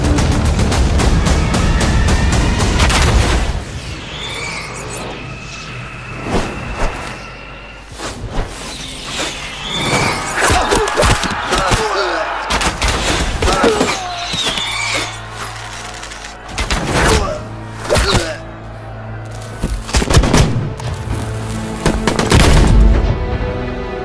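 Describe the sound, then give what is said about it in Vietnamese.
A battle gunfire volley sound effect with dense, loud bursts of massed shots and booming impacts in rapid clusters. The barrage runs about twenty-four seconds with brief lulls between the heaviest bursts. “Bắn bao trùm cho ta. Đã đông rồi lại còn chơi hàng nóng.”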